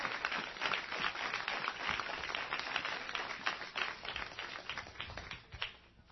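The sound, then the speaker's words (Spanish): A church audience applauds during a sermon, clapping fast and steadily; faint, thin-sounding and band-limited, it dies away near the end. “Dale fuerte el aplauso al Señor,”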